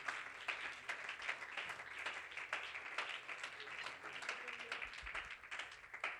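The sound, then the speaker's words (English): An audience claps hands during a church service, the dense, continuous patter of many palms sustained evenly throughout at a fairly soft level. “would you clap your hands to God in this place?”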